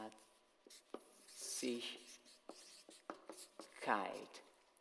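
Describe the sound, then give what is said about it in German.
Scratchy strokes of a pen or chalk writing large letters on a board, coming as a series of short, distinct scrapes and taps with a few longer squeaky strokes, moderately faint. “Ich hoffe, dass ich groß genug schreibe, dass man das auch erkennen kann.”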